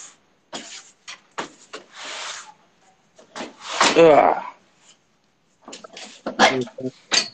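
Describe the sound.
Knocks, thumps and scrapes as a large folding table is set up with its legs locked, a handful of sharp handling noises scattered between bursts of talk.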